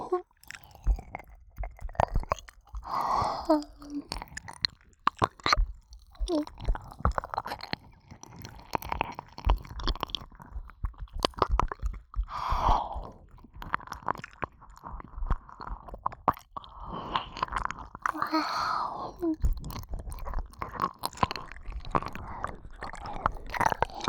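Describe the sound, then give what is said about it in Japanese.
Food chewed and bitten with many wet, squishy smacks and soft crunches in an irregular rhythm, continuing throughout without talking. “いただきます。”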